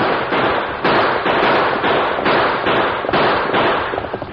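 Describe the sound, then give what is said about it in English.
Rifle gunfire in a shootout during a stagecoach chase, a dense, loud, unbroken volley of rapid cracking shots that overlap into a continuous crackling roar. “Them using rifles. Any bullets hit stage.”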